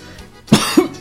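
Three sharp, loud coughs in quick succession, each a short harsh burst of breath, standing out clearly over a quiet, faint background.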